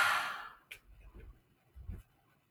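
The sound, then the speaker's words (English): A single deep breath, heard as a broad, airy rush that fades over about half a second, followed by faint low rustles and soft thumps. “And so let's take a deep breath.”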